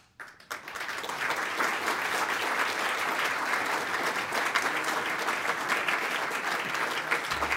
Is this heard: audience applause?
yes